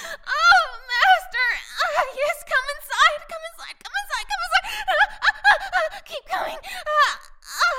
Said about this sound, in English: let out my sexiest moan as my body quivers.